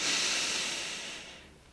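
A deep breath drawn in, a steady airy hiss that starts strong and slowly fades away over nearly two seconds, with no voices.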